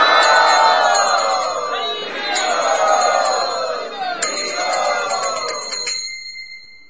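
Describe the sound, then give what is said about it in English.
Many voices loudly chant the holy name together in welcome, their pitches sliding and overlapping. Steady high ringing tones hold above the chant, which stays dense and full before thinning out at the end. “Let us welcome them by loudly chanting the holy name.”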